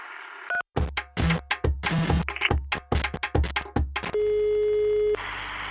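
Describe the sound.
An unanswered telephone call produces a rapid series of pulsed electronic tones, followed by one long steady tone that ends abruptly.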